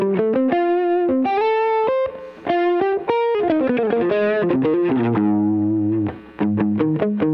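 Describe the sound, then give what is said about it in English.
Electric guitar played on the middle pickup of a Stratocaster through effects with some distortion. Quick single notes and short chords come loud and steady, with two brief gaps and no talk. “If I mess around with some of the different pickups on this Strat, if I go to the middle pickup, which I really like,”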